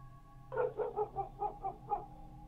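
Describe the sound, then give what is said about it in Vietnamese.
A black dog barking outside in wind and rain, a quick run of seven sharp, mid-pitched barks over a low, steady hum. “Còn đang suy nghĩ thì trong tiếng mưa gió ở bên ngoài, tiếng con chó mực lại cắn lên ông ổng.”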